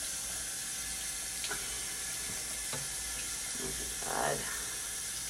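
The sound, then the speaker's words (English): Water swishes as a razor is rinsed in a sink between strokes while shaving legs, a soft steady wash with a brief, slightly louder splash near the end. “I have to swipe my razor in the water every time that I go up my leg”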